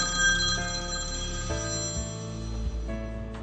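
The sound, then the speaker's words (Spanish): An incoming telephone call rings with an electronic ringtone: steady, bell-like tones that step to a different pitch a few times, moderately loud and with no voices over them. “vamos a contestar la llamada”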